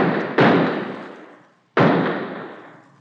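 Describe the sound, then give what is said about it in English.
A gun is fired into the air: two sharp, loud shots about a second and a half apart, each ringing out into a long, slowly fading tail. “Yeah, but first empty the gun in the air. There are 3 bullets still in it.”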